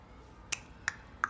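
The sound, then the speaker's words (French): Text-message notification on a smartphone: three short, bright electronic beeps, evenly spaced and fairly crisp, over a low, quiet background. “On range les smartphones. Non, mais c'est pas ça, c'est un SMS.”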